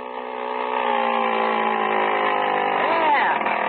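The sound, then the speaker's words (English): A small motor fitted to a bicycle runs: a steady, buzzing engine drone with layered overtones, holding an even level throughout and wavering slightly in pitch near the end. “How do you like the motor, Unc? Boy, it runs keen. Oh? Pushes the bike right along, does it?”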